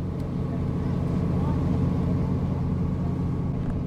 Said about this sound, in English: We're on a small motorboat in the western highlands of Guatemala, crossing the beautiful lake known as Atitlan.